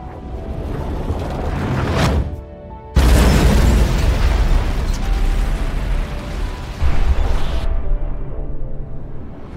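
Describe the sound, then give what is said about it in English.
Hellfire missile strike explosions in a war scene: a sudden loud blast erupts into a sustained rumbling roar, with a second burst several seconds later before the noise tapers off. “armed with Hellfire missiles. Missiles away.”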